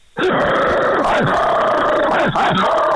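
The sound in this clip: A voice imitates a Rottweiler: a loud, sustained, raspy growl-roar with a few brief breaks and wavering throaty tones, heard alone.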